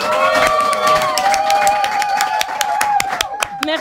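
A studio audience cheers and applauds for game show contestants, with a dense patter of clapping and crowd noise over steady music.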